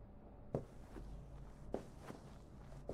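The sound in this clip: Footsteps of a person walking toward the stairs: a few slow, distinct steps with softer scuffs between them, spaced unevenly over a quiet, steady background.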